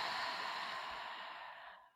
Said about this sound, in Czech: A výdech. Nádech. A výdech.